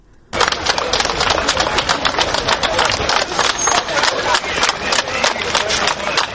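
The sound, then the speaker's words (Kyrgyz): About two hundred protesters at a silent protest in Minsk clapping hands and stamping feet, a dense, loud, continuous clatter of many overlapping claps and thuds that keeps a steady level throughout. “200 адам ушинтип кол чаап жана жер тепкилеп турушту”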